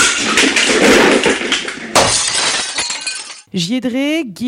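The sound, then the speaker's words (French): Glass shatters and objects crash as things are smashed in a dressing room, a loud run of breaking and tinkling that dies away, followed by a voice. “Écoute, là on est dans ma loge, donc je pense que je vais tout casser.”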